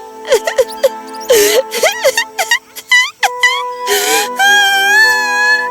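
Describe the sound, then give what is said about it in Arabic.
A girl cries in pain after tripping over a tree branch and hurting her knee, giving high, wavering whimpers and drawn-out wails broken by many short sobbing breaths. “كانت جريحة وتتألم، وبدأت في البكاء.”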